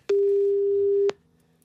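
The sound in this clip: A single steady, mid-pitched telephone ringing tone lasts about one second while a call to a consignment shop goes unanswered, then gives way to near silence.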